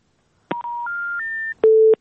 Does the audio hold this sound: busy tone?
yes